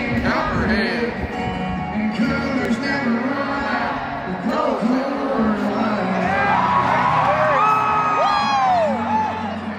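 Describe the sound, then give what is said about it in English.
A concert audience cheers and whoops in a loud, continuous roar, with scattered shouts and yells rising above it from start to finish. “listen to the audience's reaction to that. Here it is.”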